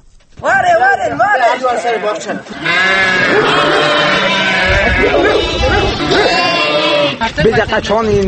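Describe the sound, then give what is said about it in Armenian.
Sheep bleating in a Yazidi-populated village in Armenia's Armavir region: loud, wavering, nasal cries, a shorter bleat followed by a long sustained one lasting several seconds, with a brief trailing call at the end. “Հայաստանում անցած տարվա մայիսից պակասել ու շարունակում է նվազել ոչխարի բառաչը նույնիսկ եզդիաբնակ գյուղերում։”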